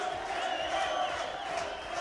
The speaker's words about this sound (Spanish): El público comienza a corear ponche. Oigan al público.